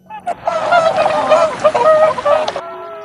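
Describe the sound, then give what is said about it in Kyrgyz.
Migrating wild geese calling as a flock, a dense overlapping chorus of harsh nasal honks, loud for about two seconds before stopping abruptly. “Аңыр куштар жалгыз учпайт, миң чакырым сапарда дилдеш болуп келет.”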